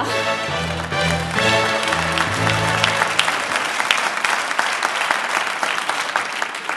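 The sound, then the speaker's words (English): Loud, dense audience applause and cheering greet Barack Obama, introduced as the next president of the United States, holding steady for the whole stretch with no break. “That being said, please help me welcome the next president of the United States, Barack Hussein Obama!”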